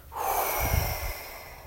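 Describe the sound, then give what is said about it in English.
A slow, deep breath drawn in and let out, soft and airy with a gentle rushing texture, heard alone at a low volume. “resume with three deep breaths. Breathing in, relaxation, breathing out.”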